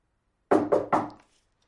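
A book being closed after a bookmark is slipped in by someone seated on a sofa: three quick, soft, low thumps in close succession, then quiet.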